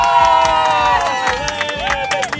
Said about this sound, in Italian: Un applauso!